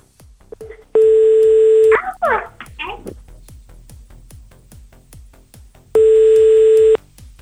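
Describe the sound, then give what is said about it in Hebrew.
Telephone tones as a number is dialed to place a call: two long, steady electronic tones about five seconds apart. A fast, regular ticking runs throughout, and a brief voice is heard after the first tone. “יאללה, הנה אנחנו מחייגים. ברגע שהוא עונה, 60 שניות מתחילים לתקתק.”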